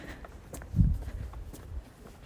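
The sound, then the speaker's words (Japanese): Footsteps of someone walking outdoors to a postbox: a few faint, irregular steps over a low background rumble. “ポストにあの郵便物を出しに歩いてるんですけど”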